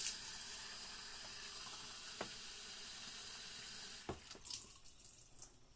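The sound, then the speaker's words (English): Water runs from a sink tap in a steady, faint hiss for about four seconds, then the flow breaks into uneven splashes and trickles; no one speaks. “Can I get a little water on this sink?”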